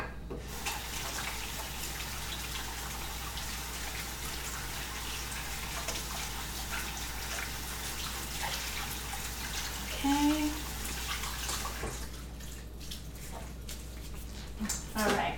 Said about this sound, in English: And let me just wash my hands